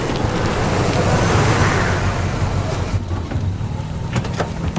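A car approaching on a road gives a steady, broad rumble of engine and tire noise that stays fairly even in loudness throughout.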